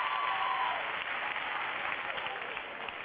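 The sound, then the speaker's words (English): Audience applause during a stand-up comedy show, a dense, steady clapping that fills the whole moment at an even level without a break. “Give yourselves a round of applause, ladies.”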